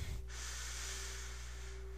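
A person takes a slow, deep breath in. After a brief rough onset, a faint, airy, steady hiss is drawn out for most of two seconds, with no talking.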